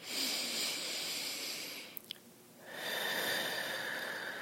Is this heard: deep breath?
yes